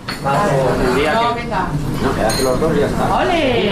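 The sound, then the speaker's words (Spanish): Dishes and cutlery clinking in a café in Logroño at the start of the day, with bright, sharp clinks of crockery and metal cutting through steady chatter from several people. “Comienzo del día en una cafetería de Logroño.”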